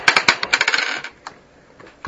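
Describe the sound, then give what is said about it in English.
A die rolled across a table makes a quick rattling clatter of many rapid bright taps that fade over about a second. A few faint ticks follow as it settles, then one last tap. “No, I roll a die and I add two.”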